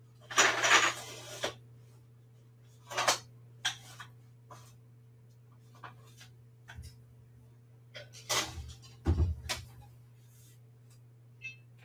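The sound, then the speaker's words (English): Clattering of a baking tray as cheesy bread topped with cheese sauce goes back into an oven: a few brief metallic knocks and clanks, spaced apart and fairly faint, over a steady low hum. “And now I'm going to put it back in the oven. I'm just going to put it on 400.”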